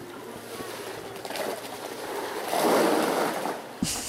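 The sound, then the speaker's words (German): Some 2,500 rubber bath ducks splash into the Erft river during an annual village tradition. Rushing water swells into a broad burst of splashing midway, then eases off. “Und warum 2500 Badeenten da in die Erft geworfen werden einmal im Jahr, das fand ich natürlich auch irgendwie ganz spannend. In Arloff-Kirsbenig gibt es nämlich diese Tradition und das hört sich dann so an, wenn sie reingeworfen werden.”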